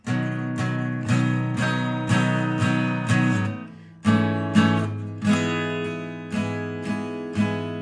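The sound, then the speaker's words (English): Hard, percussive strums on a guitar playing chords, each attack clipped and punchy rather than loose. A steady series of strong strokes rings out alone, with a brief pause partway through. “So you get those hard strums.”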